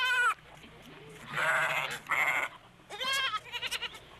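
Sheep and goats bleating as lambs and kids are carried off and the mothers run after them: several loud, wavering, harsh bleats with pauses between, ending in a quick series of short pulsing cries.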